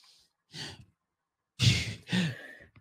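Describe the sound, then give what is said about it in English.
A voice imitates someone breathing heavily into a microphone when upset. After a short pause, one breathy exhale is followed by two loud, gusty sighs in quick succession. “this is a thing he does where he just breathes into the microphone when he's so upset”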